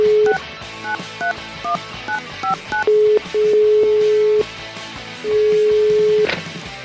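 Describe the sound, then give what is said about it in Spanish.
A telephone number being dialed with DTMF keypad tones during a radio call-in: a quick string of short, bright dual-pitched beeps, then a few longer steady tones, over a faint busy background. “Así que marquemos.”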